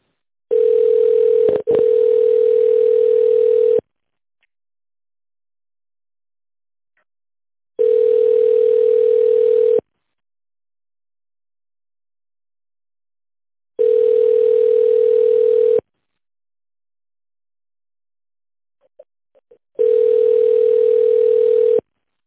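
Telephone tone heard while placing a call: four long, steady low beeps of equal length, each followed by a few seconds of silence, with no voices.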